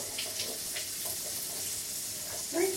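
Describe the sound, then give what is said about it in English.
Water running from a tap into a sink while a young girl washes her hands, a steady rushing hiss with a brief splashy swell near the end. “Right, we turn the taps on. Ooh. Right, can you lean over and wash your hands?”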